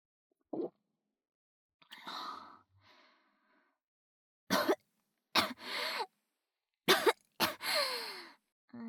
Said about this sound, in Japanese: 大丈夫、むせただけ。